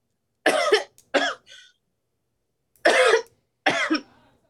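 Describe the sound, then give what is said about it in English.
Coughing from a popcorn kernel stuck in the throat: four harsh, forceful coughs in two pairs separated by a short silence, loud and dry, with no talk. “I saw this, you know, popcorn kernel, it got stuck in my throat. That hurt really bad. But Nikki said, don't be with the COVID. No, it's the popcorn kernel.”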